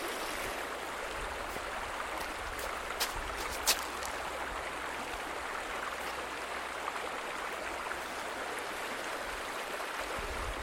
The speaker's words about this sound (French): Là, je peux enregistrer le bruit de l'eau.